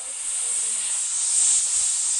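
The burning fuse of a smoke bomb hisses steadily after being struck alight. The hiss is loud, sharp and continuous, swelling slightly toward the middle with no break.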